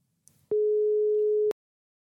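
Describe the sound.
Telephone ringing tone while placing a call: a single steady, pure, mid-pitched beep lasting about a second, alone after a faint brief rustle.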